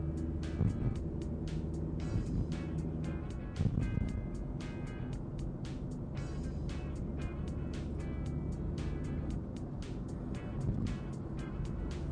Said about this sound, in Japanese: うわ、めっちゃ車いる、 怖っ。